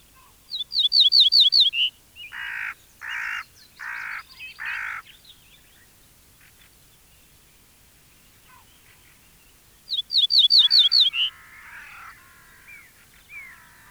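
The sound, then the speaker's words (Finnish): Song of an ortolan bunting, a migratory bird of southern Finland: two phrases, each a rapid run of high, thin chirps. The first is followed by four lower, longer buzzy notes. No voices are heard. “Peltosirkku on muuttolintu. Se saapuu Etelä-Suomeen vapun tienoilla ja lähtee varsin vähinäänin syksyn tultua etelään, Pohjois-Afrikkaan ja Lähi-Itään asti.”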